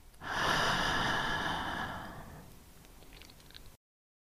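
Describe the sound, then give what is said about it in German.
A deep breath, drawn in through the nose and let out through the mouth with a sigh, swells quickly into one loud, airy rush that tapers off slowly, with no talk. “Atme dafür durch deine Nase tief bis in deinen Bauch ein. Und mit einem Seufzen aus dem Mund wieder aus.”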